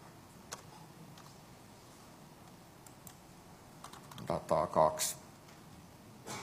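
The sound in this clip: Typing on a computer keyboard: scattered light keystrokes, then a short burst of quicker, louder clicks near the end.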